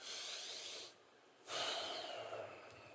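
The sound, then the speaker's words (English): A group taking a deep breath together during a guided pause: a soft, airy hiss of inhaling, a brief silent hold, then a louder breathy exhale that slowly fades. “just take a breath, take another breath”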